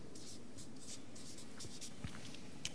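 Writing on a board during a Bible lesson, with a run of short, scratchy strokes in quick succession, faint and steady, and no voices.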